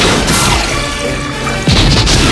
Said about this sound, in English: Fire torpedoes! Fire torpedoes!